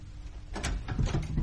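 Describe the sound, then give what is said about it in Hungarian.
Soft approaching footsteps in a drama scene, a few low dull thuds following a quiet start, faint and muffled. “Léptek közelednek.”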